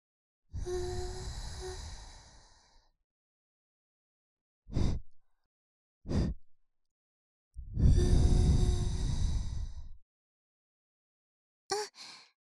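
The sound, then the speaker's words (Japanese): Gentle puffs of air blown into an ear during ear cleaning: two long, soft breathy exhalations alternate with several short, quick puffs, all hushed and airy, with silence between them. “もう一度ふうふうしますね。”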